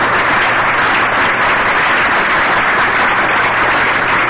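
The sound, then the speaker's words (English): Audience applause at a recovery-group talk, right after mention of a couple's 50th wedding anniversary. It is a loud, dense, unbroken roar of clapping at a constant level, with no voices heard over it. “you're applauding AA and Al-Anon.”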